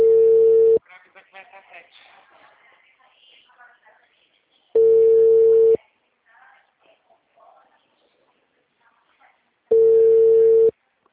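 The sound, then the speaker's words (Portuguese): Ringback tone while calling someone's father on the phone: three steady, loud, even beeps spaced about five seconds apart, with quieter talk in between. “Ligando pro pai dela.”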